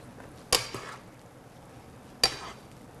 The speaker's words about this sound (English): Turn off the heat and give it a nice stir.